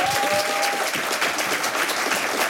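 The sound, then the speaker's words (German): A studio audience applauds to welcome arriving guests with dense, even clapping that stays loud and steady throughout, with no pause or break. “Ich bitte um einen großen Applaus. Herzlich willkommen.”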